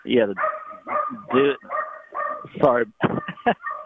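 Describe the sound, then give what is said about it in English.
A dog barks and yips in a rapid, unbroken series of many loud, tonal, whining calls, each short and evenly spaced, with no talk over them. “sorry about that. Are you having a dog that wants to talk?”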